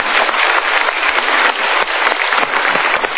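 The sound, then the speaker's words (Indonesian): Audience applause, loud, dense and continuous: many hands clapping steadily for the whole stretch, with no voices over it. “Oke, kita berikan tepuk tangan untuk Anda.”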